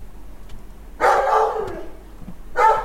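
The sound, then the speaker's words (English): A dog barks alone with no voices: one loud, drawn-out bark, then a short pause before a second bark begins. “Yeah, that's a dog barking, all right.”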